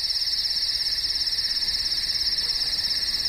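Crickets chirp in a continuous, high-pitched pulsing trill that stays even and steady from start to finish, with no other sounds alongside.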